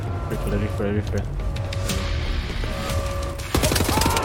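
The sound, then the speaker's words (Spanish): Gunfire in the video game Wolfenstein: The New Order, with shots overlapping against other game sounds. It ends in a loud, rapid, evenly spaced burst of automatic fire. “Están disparando todas las mismas.”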